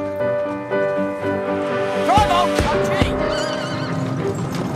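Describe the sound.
A horse whinnies as a horse-drawn police wagon pulls away, its high neigh rising over a few sharp hoof clops and a sustained tonal background.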